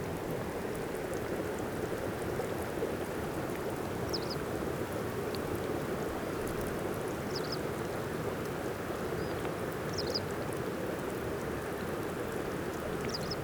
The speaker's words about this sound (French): C'est tout simplement la fonte de la glace.